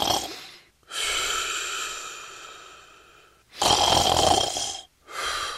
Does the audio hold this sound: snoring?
yes